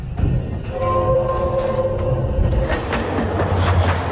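Train in motion: a loud rumbling roar with a sustained high tonal whine in the first half, continuing as a dense rattling rumble to the end.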